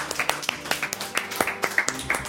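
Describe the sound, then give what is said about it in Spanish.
A small audience claps for a prize winner at a live prize-giving, a thin run of many distinct, sharp individual claps at a quick, fairly even pace, quiet rather than a full ovation. “¡Un aplauso! ¡Vamos!”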